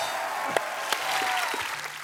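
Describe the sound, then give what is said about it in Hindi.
A studio audience on a comedy talk show applauds: steady, dense clapping throughout, with a few sharper claps standing out from the wash. “और एक बार जोरदार तालियां Ranbir Kapoor and Aishwarya Rai के लिए.”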